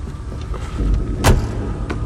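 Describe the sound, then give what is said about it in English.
A man climbs into a Porsche: a low car rumble runs underneath, with soft shuffling movement and one short, sharp knock just past the midpoint. “He nods at Wheelman, who turns and steps back to the Porsche. Wheelman climbs in.”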